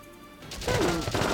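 Gunfire crackles in the video game Valkyria Chronicles: after a quiet start, a burst of sharp cracks and crunching impacts arrives in quick succession.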